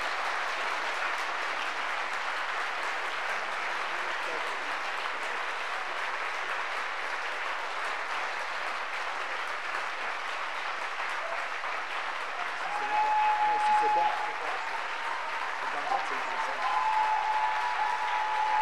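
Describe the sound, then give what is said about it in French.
An audience claps steadily in praise during a bilingual French-English church service, producing a dense, continuous wash of applause that runs unbroken throughout and grows slightly fuller toward the end. “Acclamons, acclamons, acclamons. Let's clap to the Lord.”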